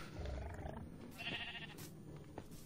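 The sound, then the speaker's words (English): Sheep bleating in a video game, short nasal bleats over a busy bed of game noise. “Okay, get in, sheep. Get in, get in, get in, sheep.”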